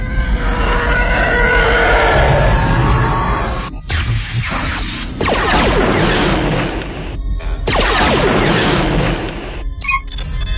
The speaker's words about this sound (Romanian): Au tras în noi. Modulul de comunicație a fost grav avariat.